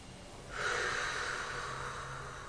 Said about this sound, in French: Et nous prenons une grande inspire et nous laissons se déployer nos sentiments.